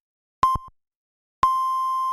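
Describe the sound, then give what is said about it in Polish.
Radio hourly time signal marking eight in the evening: a short pip at a steady mid pitch, then after a pause a long sustained tone at the same pitch that holds to the end, clear and alone without talk. “Wybiła 20 w Radiu Meteor. Magazyn muzyczny. Dobry wieczór, wybiła godzina 20.”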